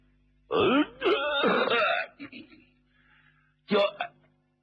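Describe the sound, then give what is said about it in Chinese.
A storyteller performs a single cough as a deliberate, throat-clearing vocal sound: a loud, rough, voiced burst with a second, shorter burst after a pause. “曾国藩就咳嗽了一声，”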